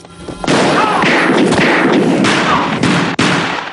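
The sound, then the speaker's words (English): Pistol gunshots in a film shootout: a few very loud, sharp blasts, each with a long, heavy ringing tail that runs into the next. “Fraker returns fire and shoots Schreiker in the shoulder.”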